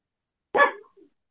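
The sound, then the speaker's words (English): A single sharp, mid-pitched bark from a pet dog, followed by a brief faint trailing yelp, alone against silence. “don't mind my doggy, he likes to bark.”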